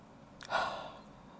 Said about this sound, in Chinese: 让我们先做一个深呼吸